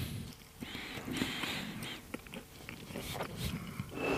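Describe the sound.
Biting and chewing of sliced spinach garlic: a continuous, noisy munching with no talk.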